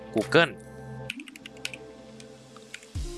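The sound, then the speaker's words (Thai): Typing on a computer keyboard while entering a web address into a browser's search bar. A short burst of voice comes first, then a run of quick, light key clicks at an uneven rhythm, ending with a heavier press. “ปุ๊บกดขยายตรงแท็บ Search ด้านบนนะครับพิมพ์คำว่า”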